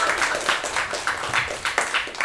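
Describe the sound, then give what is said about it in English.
A short burst of applause: a small group claps in a steady, brisk patter at moderate loudness, with a voice briefly mixed in. “A round of applause for that, come on!”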